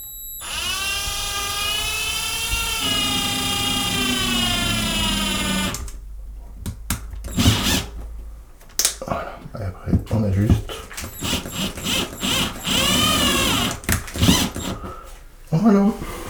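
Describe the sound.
Whining motor of a power screwdriver driving a screw into a railway track, a steady high-pitched drone lasting about six seconds, followed by people talking.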